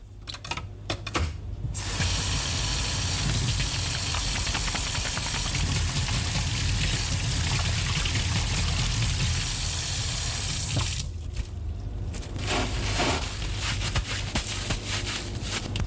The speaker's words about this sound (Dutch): Dus het eerste wat ik ook altijd doe als ik binnenkom in de cell culture, dat is mijn handen wassen.